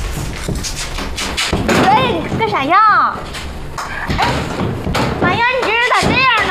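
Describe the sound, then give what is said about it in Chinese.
Knocking and thumping on a locked door, heard as a series of dull blows mixed with raised, argumentative child voices that go on over and between the strikes. “别敲了你，不开。”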